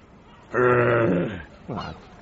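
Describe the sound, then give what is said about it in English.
A teddy bear's internal growler sounds as the toy is tipped: two low, moaning groans, the first long and drooping in pitch at its end, the second short. “Feels like there's something inside here. Oh, that's its growler. Growler. You know, makes a noise.”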